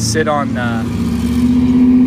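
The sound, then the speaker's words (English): A big truck drives by on a neighborhood street, a steady low engine drone that grows slightly louder, with a person talking over it at the start. “you'll have to excuse the big truck driving by as I”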